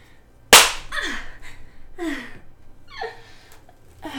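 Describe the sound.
A hand strikes bare buttocks once in a single loud, crisp slap, followed by several breathy gasping vocal sounds.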